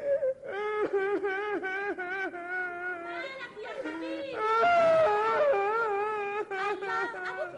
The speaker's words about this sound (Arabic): وبعد شويه رجع ابنه هالك نفسه من العياط